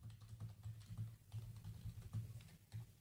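Typing on a computer keyboard to enter a search: a faint, continuous patter of many quick keystrokes in an uneven rhythm, with no voices.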